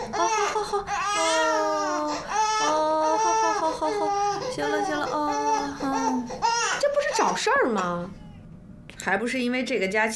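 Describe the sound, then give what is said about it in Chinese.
A baby cries in loud, sustained, wavering wails that rise and fall in pitch, continuing with little pause, breaking briefly near the end before the crying resumes. “怎么老哭啊？是不是饿了？饿什么饿？刚吃完。 是不是哪儿不舒服？啊？ 德华说他爸小时候就爱哭，这是遗传。”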